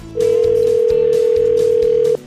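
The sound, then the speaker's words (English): A telephone dial tone plays as a call to a sporting goods shop is placed. The steady, loud, low hum holds unbroken for about two seconds, then cuts off. “So here we go. Dialing up Steve at Indian Country Sports in Lawrence.”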